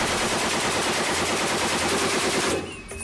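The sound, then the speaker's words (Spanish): A Colt heavy machine gun fires, rated at more than 500 rounds per minute. One loud, rapid, continuous burst rattles on and then stops abruptly shortly before the end. “una ametralladora Colt, como las que usaron en ese día, ¿no? Eran ametralladoras pesadas. Disparaban más de 500 balas por minuto.”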